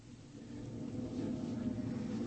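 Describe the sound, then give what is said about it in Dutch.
Low, rumbling drone of a convoy of vehicles setting off, a dense engine rumble that swells slightly over its course, with no voices. “Ons konvooi gaat rijden.”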